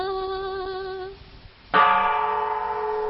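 A large Vietnamese pagoda bell is struck twice. The first deep, humming toll rings with rich overtones and fades away. After a short lull a second, louder strike blooms and keeps sustaining steadily.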